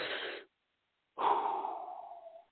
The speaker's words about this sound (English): deep breath real quick. I feel like I've been going at this for about 45 minutes without even breathing.